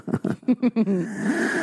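A quick run of short, voiced gasping bursts turns into one long, raspy inhale that trails off, from a scene in the film Poltergeist.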